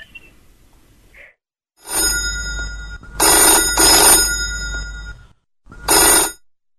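A telephone bell rings for an incoming call on a phone-in line. The loud, bright, metallic ringing comes in a few bursts separated by short silent gaps, with no talk.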